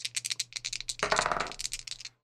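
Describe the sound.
Dice rolled during a tabletop roleplaying game give a run of sharp clicks and rattles. A denser clattering burst comes midway, and the rattles then thin out and stop.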